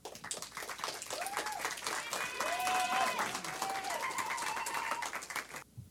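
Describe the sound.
Audience applause welcomes a speaker to the stage at a women's church testimony gathering: dense, steady clapping that swells in the middle, with tonal cheering and voices riding on top.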